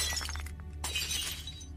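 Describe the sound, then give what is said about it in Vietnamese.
A glass beer bottle smashes against a wall: a bright, fairly faint crash of breaking glass, then a second burst of shattering. “Tôi nhào đến, cầm lấy chai bia siết chặt, sau đó tôi đập mạnh vào tường.”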